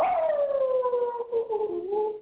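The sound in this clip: A person imitates a wolf howl as one long, loud, wavering tone. It starts high, slides gradually downward, lifts slightly near the end and then cuts off.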